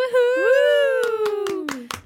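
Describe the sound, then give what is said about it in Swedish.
A few sharp hand claps sound under a loud, drawn-out cheering voice at a joyful announcement. The claps are sparse and irregular, not a full round of applause. “Hurra! Fantastisk applåd.”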